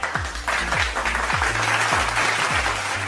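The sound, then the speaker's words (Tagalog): Applause from a class of students for their correct answers, a continuous dense patter of clapping throughout, with a low falling swoop repeating underneath at an even pace. “Palakpakan ninyo ang inyong mga sarili dahil tama ang inyong mga kasagutan.”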